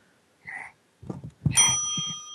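A crawling baby strikes a small bell: a few soft knocks, then one bright, high ring that lingers and slowly fades.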